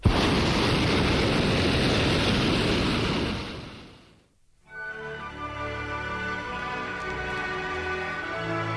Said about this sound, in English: Conversation aloft is punctuated by blasts from the burner.